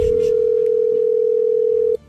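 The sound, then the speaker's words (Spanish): A telephone dialing tone: one steady, unbroken mid-pitched hum held loud for about two seconds, then cut off abruptly. “Estamos marcando.”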